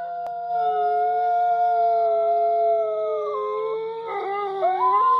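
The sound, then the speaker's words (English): Wolves howl in long, sustained, tonal calls. One steady howl slowly sinks in pitch before other howls join in overlapping chorus near the end. “I hear the wolves howling.”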